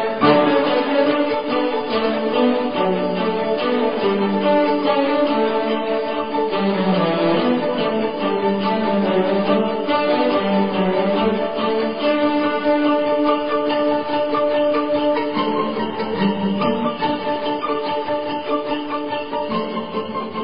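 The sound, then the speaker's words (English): Orchestral suite music from its troika section plays on its own, with no voices. A full, dense ensemble sound holds steady and loud throughout, with a busy, sustained texture. “When you listen to it, it is the Troika section of the suite.”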